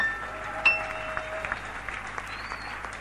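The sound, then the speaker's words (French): Congregation applauding in church, a soft, steady wash of clapping with a few sharper claps standing out, fairly faint throughout. “Est-ce qu'on peut encore l'acclamer?”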